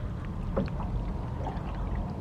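Oars rowing a boat through water produce soft, steady swishing and gentle splashes over a continuous low watery rumble, with no clear separate strokes.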